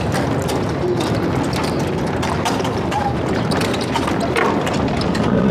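Hooves of a horse-drawn carriage clip-clopping amid dense rattling and clattering, a continuous busy mix of sharp knocks with no pauses throughout.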